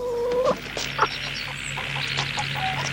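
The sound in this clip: Chickens cluck in a muddy farmyard by a barn. A few short, uneven calls and clucks rise over a steady low background hum.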